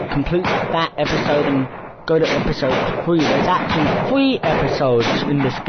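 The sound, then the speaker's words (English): A helicopter fires in a video game, with sharp, repeated gunfire bursts under a man's continuous talk. “and that noise was the helicopter shooting.”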